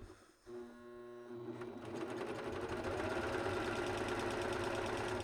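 An Ovation sewing machine stitches a waistband on children's leggings. After a quiet start and a brief bump, it settles into a steady, rapid mechanical whir and rattle that runs continuously to the end.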